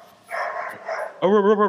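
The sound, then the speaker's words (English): Unhappy dogs in a hallway let out a short burst of barking, then a louder, drawn-out whining yelp. “there's some doggies in the hallway that are not very happy.”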